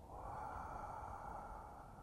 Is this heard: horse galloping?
no